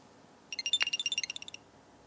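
A small battery-powered electronic gadget with a single on-off switch gives its power-on chime, a rapid warbling run of many short, high electronic beeps that lasts about a second and is fairly faint, followed by quiet.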